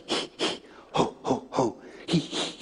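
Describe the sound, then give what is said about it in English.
A voice imitates a childbirth-class breathing exercise, making a steady series of short, forceful puffed breaths with brief pauses between them. “I soon found myself in classes where I was learning how to breathe. You remember these, right? I thought I already knew how to breathe. But then I was taught to go,”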